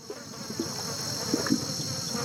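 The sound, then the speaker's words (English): Insects chirp in a swamp, a dense, steady high-pitched drone of crickets and buzzing that runs unbroken throughout, with faint low rustles beneath. “That's the sound of a swamp,”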